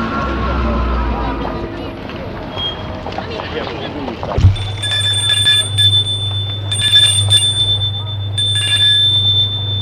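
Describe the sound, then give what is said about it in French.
A bell rings at a garden gate in the evening: a steady, buzzing electric ring starts abruptly about halfway through and holds to the end, with brighter ringing tones recurring above it. “Et le lendemain soir, il va sonner au portail de Flore.”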